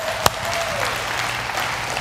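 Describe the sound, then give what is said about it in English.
Applause from an audience honouring the mothers in the room: a dense, steady wash of clapping that holds at an even level throughout, with one sharp louder clap standing out early on. “And so let's give all of our moms a big round of applause.”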